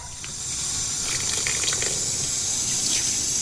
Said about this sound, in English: rinses her washing under the tap.